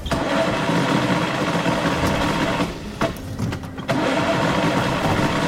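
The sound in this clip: An old engine, long kept in storage, cranks and fails to start, giving a loud, steady, grinding churn that briefly sags midway, then picks up again and runs on without catching.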